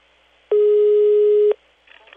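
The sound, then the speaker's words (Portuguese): A telephone call tone while dialing: one loud, steady, mid-pitched beep lasting about a second, followed by near quiet with faint noise. “Eu vou ligar agora.”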